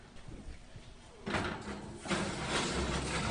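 An oven heated to 425 degrees has its door pulled open, giving a sudden whooshing rush of noise that swells again a moment later and then holds as a steady hiss.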